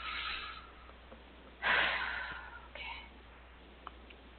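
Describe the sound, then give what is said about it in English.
Deep breathing during a guided relaxation exercise, drawn in through the nose and let out slowly through the mouth. A few soft, airy breath sounds with one stronger gust in the middle, fairly quiet, with no talk. “inhale deeply through your nose, exhale slowly through your mouth.”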